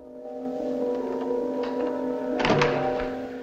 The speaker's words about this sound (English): falls to the floor.